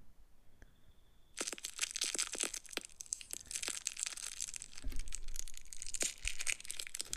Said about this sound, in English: Delectable sweets. Oh, that's Man Unwrapped Sweet.